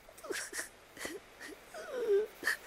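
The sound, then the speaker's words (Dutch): Soft sobbing and whimpering from someone inside a hollow tree at night: faint, broken sobs in a few short, wavering bursts, with a longer falling whimper toward the end. “Hé, het lijkt wel of iemand daar zit te huilen. Ja, daar lijkt het op. Zacht snikken.”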